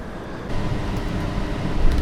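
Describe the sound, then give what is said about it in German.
Steady rumbling ride aboard a tram, a dense low-pitched roar of wheels and motor that grows a little louder after the first half second and holds unbroken to the end, with no voices. “Wir sind mal kurz umgestiegen in die Straßenbahn.”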